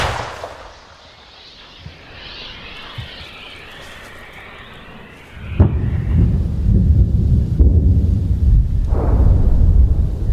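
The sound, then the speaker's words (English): Artillery fire during a combat counter-offensive near Orikhiv in dusty heat: low booms and a few dull thuds give way to a heavy blast and sustained loud rumbling. “In the southern counter-offensive near Orkhiv, Ukraine has the initiative. Yet, they have to shoot their way forwards, round by round.”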